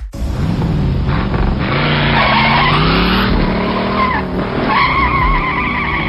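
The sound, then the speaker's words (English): A car's engine revs hard while its tires squeal and skid continuously, loud and unbroken, the engine pitch wavering up and down throughout. “Vroom vroom”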